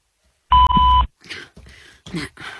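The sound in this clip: A single loud, steady electronic beep marks the start of a voicemail recording, lasting about half a second. Quieter, brief rustling sounds follow.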